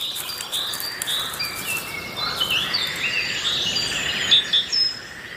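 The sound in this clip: Young common cranes, still flightless, chirping from a sheltering river pond: many high, thin peeps and tweets repeat over a steady hiss, with a few louder calls near the end.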